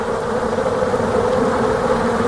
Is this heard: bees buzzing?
yes